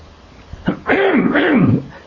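A single throat clearing: a brief catch, then a longer, harsh, gravelly rasp that wavers in pitch before stopping. It is loud and stands alone with no talk.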